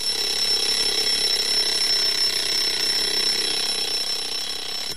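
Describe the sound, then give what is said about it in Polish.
An alarm clock rings in a home on a Sunday morning. The metallic ringing is loud, continuous and high-pitched, runs unbroken through the whole clip and fades only slightly near the end. “Nieco później w domu przeciętnego, w cudzysłowie, statystycznego Polaka zadzwonił budzik.”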